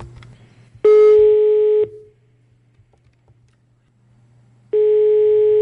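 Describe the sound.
Placing a telephone call: the ringback tone sounds as a steady, moderately loud beep lasting about a second, then a long gap, then a second beep that runs to the end, with a low hum throughout.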